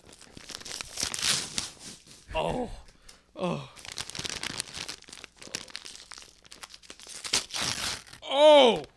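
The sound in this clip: Someone tears open a package wrapped in tape and brown paper: repeated loud crinkling and ripping bursts throughout, broken by brief voiced sounds.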